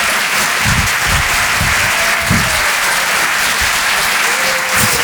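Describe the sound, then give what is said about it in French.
Audience applause at the Rire et Chanson Comedy Club as a comedian is introduced, loud, dense clapping that continues steadily from start to finish. “Faites un maximum de bruit, s'il vous plaît, pour Sébastien Wüst!”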